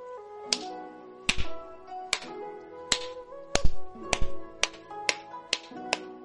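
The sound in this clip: A character pretending to clap in a comedic fantasy story: a slow series of sharp, crisp single claps, evenly spaced, over faint sustained musical tones.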